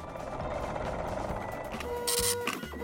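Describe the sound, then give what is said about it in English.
Steady mechanical whirring from a machine running in the back, a continuous buzzing drone that keeps an even level, with a brief brighter burst toward the end. “I hear the riddle machine whirring away in the back, so that must mean Carl heard me.”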